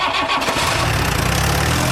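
A car engine starting and running on a busy city street in the evening, a dense, steady rumble with a low pulsing throb that fills the whole clip.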